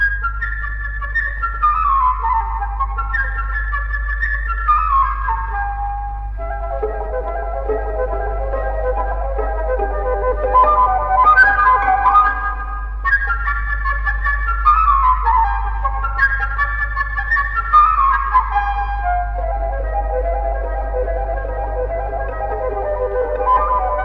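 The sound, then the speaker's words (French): A flute imitates a blackbird whistling joyfully in an orchestral recording, playing bright, high, quick phrases that repeatedly slide downward in trills over a low steady hum. “Il rencontra, perché dans un grand arbre, un de ses amis, le merle, qui se mit à siffler joyeusement.”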